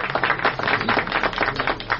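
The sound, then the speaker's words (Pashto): An audience claps in honour of a speaker at a gathering. The applause is dense and steady, a continuous patter of many hands without a break. “دغه دی دام تاسې او دام د قدر وړ غبار صاحب، په افتخاري لاسونه وپړکوئ.”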